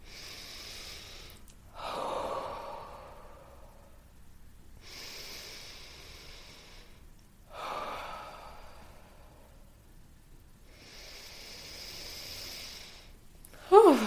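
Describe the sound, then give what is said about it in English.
Three slow, deep breaths taken at their own pace by a group doing a breathing exercise, each a breathy inhale followed by a softer, lower exhale, with quiet gaps between and no talk. “Three deep breaths at your own pace.”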